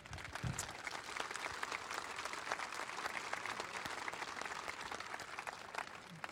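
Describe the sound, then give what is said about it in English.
Audience applause for a colleague at a baseball front-office talk on analytics: dense, steady clapping from a sizable group that holds an even level for about six seconds without pause. “So before we close, I just want to ask this group to give Dan Fox a round of applause”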